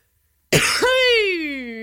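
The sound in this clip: A woman chokes on something stuck in her throat, giving one sharp cough that turns into a drawn-out, strained voiced sound sliding slowly downward in pitch.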